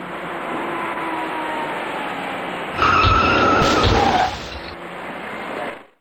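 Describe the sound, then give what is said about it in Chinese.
Tires squeal as a dark car fails to brake in time in the middle lane of a busy expressway at night and strikes a silver car ahead. A steady traffic hum swells into a loud squealing burst lasting about a second and a half, then fades. “行驶在中间车道里的这辆深色小客逐渐放慢了车速，而从后面开上来的另一辆深色小客却未能及时刹住车，他把前面的银色小客给撞了出去”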